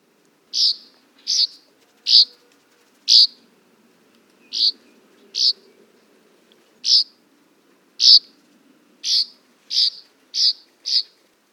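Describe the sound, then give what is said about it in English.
Northern rough-winged swallow song: a dozen short, high, buzzy notes spaced evenly over several seconds, with a faint low rumble underneath. “Here's one more version of the northern rough-winged swallow.”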